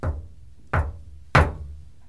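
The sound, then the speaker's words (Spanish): Three sharp knocks on a house door, evenly spaced about two-thirds of a second apart, each followed by a short low thud that fades quickly, with quiet between them. “Ya tocaron la puerta.”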